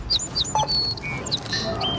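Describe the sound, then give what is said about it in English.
A sparrow chirps at a store's self-checkout: many quick, high chirps and short whistled notes over a steady low background hum. “There's a sparrow using a self-checkout.”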